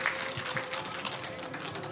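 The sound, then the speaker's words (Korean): Audience applause for a Wonju Arirang folk song preservation troupe after their stage performance: soft, steady clapping from many hands throughout, with a faint voice in the background. “원주 어리랑 보존회 여러분들께 다시 한번 큰 박수 부탁드리겠습니다.”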